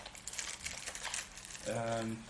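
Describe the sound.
A small plastic shopping bag being handled, giving off soft, busy crinkling and rustling, with a voice coming in near the end.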